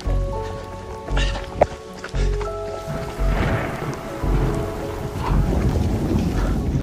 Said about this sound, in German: Es ist am Gewittern, es ist kalt, es ist grusig.